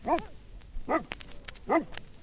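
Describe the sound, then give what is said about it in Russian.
Three deep, loud barks from a Newfoundland search-and-rescue dog, evenly spaced about a second apart, with quiet gaps between them. “Это Кера, ее порода Ньюфаундленд Лензер. Даже по голосу можно определить, что собака она добродушная, рассудительная.”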